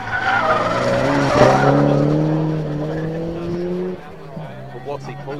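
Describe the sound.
Tyres squeal as a Porsche 944 slides wide, a loud sustained skid over a steady engine drone whose tones drift slightly in pitch, then the squeal cuts off and a quieter engine note carries on.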